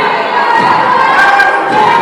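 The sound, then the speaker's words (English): Crowd at a men's basketball game in a gym erupts in a steady roar of cheering and shouting after a disputed foul call. The sustained noise holds loud throughout. “you can hear the emotion from the crowd as well as the sidelines.”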